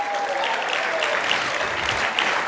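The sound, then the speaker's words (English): Audience at a university event applauding and cheering during a speech: a dense, steady wash of clapping with scattered shouts, loud and unbroken throughout. “come on, make some noise, NCU.”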